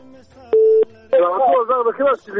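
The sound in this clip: A short, steady single-pitch telephone line tone sounds once after a call on a radio phone-in drops. A voice then starts talking.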